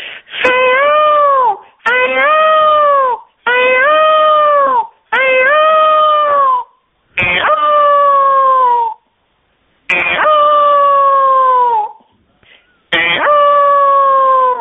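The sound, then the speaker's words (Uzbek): Peacock calls: seven loud, nasal, wailing cries, each a rich harmonic note held for about a second, separated by short silent gaps. “Ham chiroyli qush, shu tovusini chiqaradigan ovoz shunday bo'lar ekan.”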